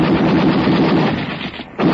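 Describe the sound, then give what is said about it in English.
Heavy gunfire rattles in a dense, continuous barrage of rapid shots, loud throughout, easing briefly near the end before surging again. “During a slight lull in the firing”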